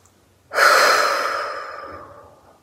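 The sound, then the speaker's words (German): A deep breath taken during a guided meditation: one long, airy rush of breath that begins abruptly and fades slowly over about two seconds, heard alone without speech. “Also atme nochmal tief ein und tief aus.”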